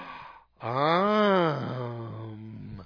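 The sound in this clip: A voice imitates a prissy little girl's shocked gasp as one drawn-out, voiced exclamation. Its pitch arches up and then slides back down before trailing off, heard alone.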